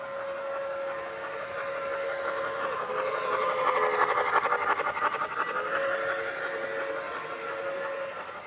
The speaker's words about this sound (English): Not only does the design scream Art Deco, the whistle screams train.